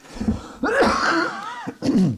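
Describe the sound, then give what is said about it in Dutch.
Coughing from an itchy throat: a few harsh, throaty coughs and throat-clearing bursts, loud and close together, with a short gap before the last one. “gaat het kribbelen en dan moet ik heel hard hoesten”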